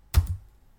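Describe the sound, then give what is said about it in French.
Two quick, sharp clicks from pressing the random-draw button on a computer, a short dry double tap that stands alone in near silence. “Et maintenant j'ai le bouton tirer au sort sur lequel je vais appuyer tout de suite. Attention, roulement de tambour, j'appuie.”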